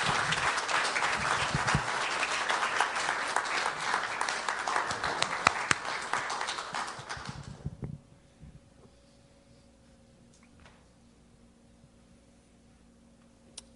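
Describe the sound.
A church audience applauds to welcome a guest pastor: steady, loud clapping for about eight seconds, then it stops abruptly and near-silence follows with only a few faint ticks.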